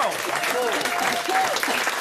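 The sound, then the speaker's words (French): Audience applause for a quiz-game guest who has made no errors, a short burst of dense, steady clapping at an even level throughout. “Est-ce qu'on peut, s'il vous plaît, applaudir quand même ?”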